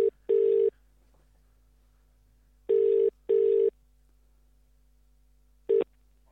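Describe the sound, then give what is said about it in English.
Telephone ringing tone on an outgoing call, heard alone as steady mid-pitched buzzing bursts in a double-pulse pattern: a pair, a long pause, another pair, then a clipped burst at the end. “Here we go. Dialing in Ilan.”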